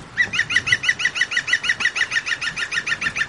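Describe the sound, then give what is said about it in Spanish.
A bird calls from the top of a tree in stormy weather, giving a quick, steady run of many bright, honking squawks at an even rhythm with no pause. “¿habéis escuchado al pájaro observador? Que como siempre está aquí arriba en la copa del árbol”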